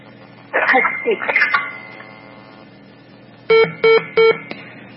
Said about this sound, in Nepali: Okay साथीको phone disconnect हुन सकेको छ।